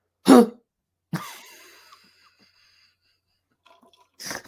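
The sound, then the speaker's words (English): A person deliberately clears their throat in an exaggerated imitation of someone else's habit: a harsh burst, then a longer raspy, voiced rattle, and another rough burst after a pause. “I'll start clearing it like this. My old computer teacher used to clear his throat like this.”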